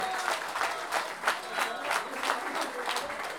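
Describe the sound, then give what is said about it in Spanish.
An audience applauding at a payador folk-verse tournament. Dense, steady clapping fills the whole stretch at an even, moderate loudness. “el Omar se merece un doble aplauso”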